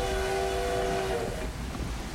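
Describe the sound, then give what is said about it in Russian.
A departing train sounds a sustained, horn-like chord for about a second, and then a steady, loud rumble carries on alone. “Поезд уезжает.”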